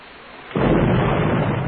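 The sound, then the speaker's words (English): A bomb explosion erupts suddenly as a loud, deep burst that carries on as a sustained rumbling roar. “They bomb.”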